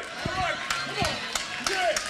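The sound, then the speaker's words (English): A few sharp hand claps, spaced apart, ring out while a person talks over them. “That deserves better than 6 hand claps.”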